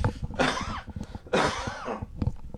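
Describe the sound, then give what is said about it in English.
A residual cough: two harsh, throaty coughing bursts about a second apart, each a rough, breathy fit with a few quick pulses, loud and alone. “Excuse me. It's my residual cough.”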